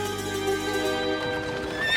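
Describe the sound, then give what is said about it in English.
Horses neigh as they pull a racing chariot, a long high whinny ringing over steady, fairly loud hoof clopping that grows busier toward the end. “8 a.m. found me racing down the Via Dolorosa in a chariot to the governor's mansion.”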